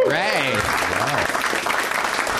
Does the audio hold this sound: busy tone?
no